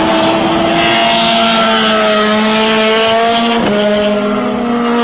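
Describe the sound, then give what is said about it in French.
Racing engines roar at the Grand Prix de Trois-Rivières auto race. The drone is loud, continuous and strongly tonal, with a steady pitch and a brief shift partway through as another car seems to pass. “on est en direct du Grand Prix de Trois-Rivières”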